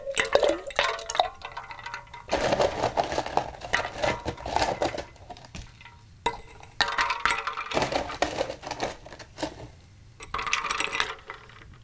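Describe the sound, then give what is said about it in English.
Ice clatters into a cocktail shaker that already holds the drink and a dash of bitters, making many rapid clinks and rattles in dense bursts with short pauses between them. “Now the rest of the shaker, you fill up with ice.”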